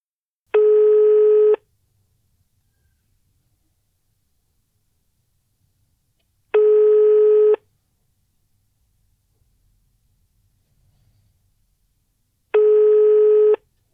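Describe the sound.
Ringback tone on an outgoing telephone call: three steady tones, each about a second long, spaced roughly six seconds apart with silence between.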